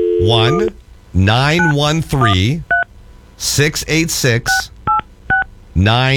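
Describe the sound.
Touch-tone keypad beeps dial a public phone number: several short two-note tones between stretches of a person talking.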